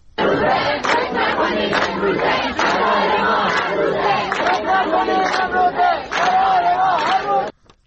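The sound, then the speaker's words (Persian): Students at Razi University in Kermanshah chanting a protest slogan together, a loud massed chorus of voices in a rhythmic, repeated cadence that stops abruptly near the end. “یکی از شعارهای دانشجویان در دانشگاه رازی کرمانشاه را می‌شنوید.”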